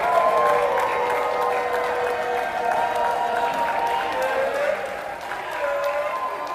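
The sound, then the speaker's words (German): Sustained applause and crowd noise greet elderly US D-Day veterans arriving at Charles de Gaulle airport in Paris 80 years after the landings, holding a steady level throughout. “Und so klingt es, wenn die noch heute lebenden US-Veteranen des D-Day 80 Jahre danach auf dem Pariser Flughafen Charles de Gaulle ankommen.”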